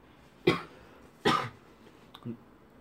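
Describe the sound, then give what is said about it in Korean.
A person coughing: two sharp, separate coughs followed by a softer, shorter third one, with no talk over them. “죄송합니다. 기침하고.”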